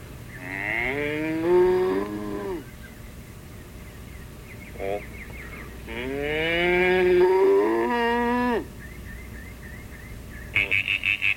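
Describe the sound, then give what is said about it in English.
Two long, drawn-out cow moos, low and rich in harmonics, each wavering in pitch and separated by a quieter gap. “Cow. Cow. Yep. Cow.”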